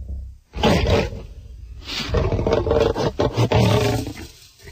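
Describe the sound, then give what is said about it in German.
A loose lion roars in deep, rough, rasping bursts: a short growl, a pause, then a long, harsh roaring stretch that pulses and fades at the end. “Am Ortseingang von Neukasino war der Löwe los.”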